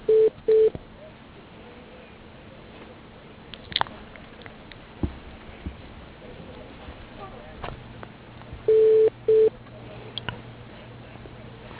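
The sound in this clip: A phone call placed to voicemail carries telephone dialing tones. Short beeps come in a pair at the start and another pair near the end, with a faint hiss and scattered clicks in between.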